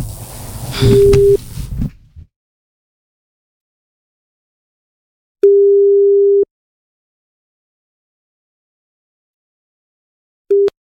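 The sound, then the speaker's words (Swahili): An outgoing phone call's ringing tone sounds as a steady, low, pure electronic beep lasting about a second. Long silences separate the beeps, and a short burst of noise comes first. “Nampigia simu leo hii.”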